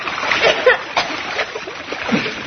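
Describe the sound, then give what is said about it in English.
Splashing from wading across a shallow stream, with irregular water splashes and sloshes that come and go over a couple of seconds. “Oh, surely it's shallow. We can wade across.”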